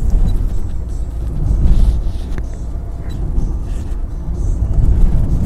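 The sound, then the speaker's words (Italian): A car is driving, heard as a steady low rumble of engine and road noise that swells and eases slightly, with no distinct events. “Mi sto avviando in auto verso questa volta un'altra stazione, quella di Lamaro”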